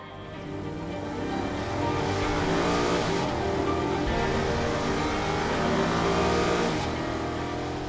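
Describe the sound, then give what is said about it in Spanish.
Engine of a BMW Z8 sports car revving: a loud, continuous roar that swells and holds for several seconds, its pitch shifting slightly as it runs, with no talk over it. “Muchos de ustedes ya sabrán de qué automóvil hablamos, pero si aún no lo identifican, con ustedes el increíble BMW Z8.”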